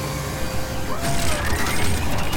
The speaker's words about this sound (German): Robohund, und jetzt den Wasserfahrmodus einschalten.